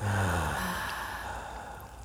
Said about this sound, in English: One more. Inhale. And exhale.